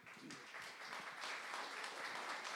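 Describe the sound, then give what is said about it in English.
Subdued applause from a live audience in Los Angeles greeting guests onto the stage, a thin, quiet and fairly even patter of clapping lasting a few seconds. “I expected a louder applause.”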